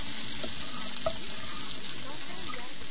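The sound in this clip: Food frying in a pan while cooking: a steady, even sizzling hiss with a few faint clinks, moderately loud and continuous throughout.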